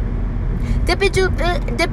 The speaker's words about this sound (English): Well, there was traffic and I didn't want to go through it, so I'm driving through the traffic